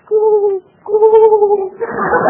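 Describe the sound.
A voice imitates a pigeon's cooing with two drawn-out, steady-pitched hoots separated by a short pause, before a voice comes in.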